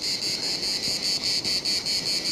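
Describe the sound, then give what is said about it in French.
Cicadas buzz at the ocean's edge in the Médoc region: a steady, high, shrill drone that pulses rapidly and evenly throughout, with a soft wash of noise beneath. “des cigales au bord de l'océan, enfin, du moins, dans cette partie régionale du Médoc, c'est la première fois que je les entends.”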